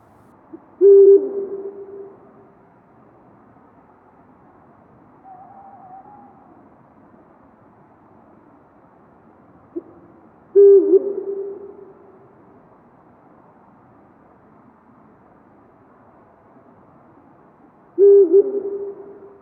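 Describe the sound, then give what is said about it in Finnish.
A Eurasian eagle-owl hoots: three deep, loud hoots spaced several seconds apart, with faint softer sounds in the quiet stretches between them. “Tähän väliin se voitaisiin kuunnellakin se huuhkajan ääni.”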